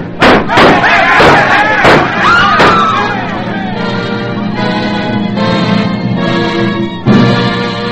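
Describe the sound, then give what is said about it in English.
Several sharp gunshots bang out in the first few seconds, fired as a G-man shoots a gangster on a city street. The loud, abrupt cracks give way to sustained orchestral music. “John Dillinger reaches for his own gun. A perfectly aimed bullet from the gun of G-Man Melvin Purvis ends the killer's life.”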